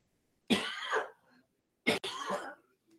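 A single cough followed by a throat clearing, two short, quiet bursts separated by a pause, with nothing else around them.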